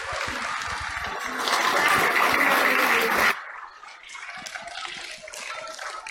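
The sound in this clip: Audience applause after a puppet performance: a dense, loud wash of clapping that swells, drops sharply a little past halfway, then carries on more thinly to the end.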